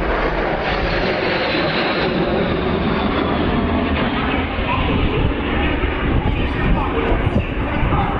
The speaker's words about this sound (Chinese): 两架轰六轰炸机在我们头顶上呼啸而过。